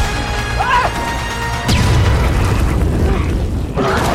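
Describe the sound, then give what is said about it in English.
An explosive thrown onto the ground goes off in a sudden loud blast that rolls into a sustained roaring rumble, with another sharp hit near the end. “Doc twirls Winona and she throws an explosive on the ground”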